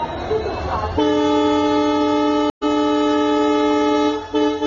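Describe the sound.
A train horn blaring in a long, steady multi-tone blast, briefly cut off for an instant and resuming, over low rumbling rail noise, with a murmur of voices at the start.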